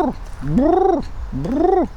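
A cat makes straining noises while pooping in a corner: two long, drawn-out moaning yowls, each rising then falling in pitch, with the tail of another call at the start.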